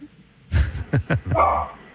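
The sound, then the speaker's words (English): A dog barking: a few quick, loud barks and then a longer, higher yelping bark, with no talk over them. “Oh, there we go. There's a dog. Is that a dog?”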